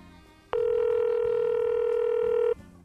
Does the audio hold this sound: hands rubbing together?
no

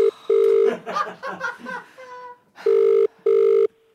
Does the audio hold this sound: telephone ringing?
yes

